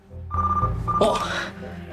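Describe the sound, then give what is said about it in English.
A telephone rings in two short, bright tonal bursts over a busy background, then the ringing stops. “He answers the phone.”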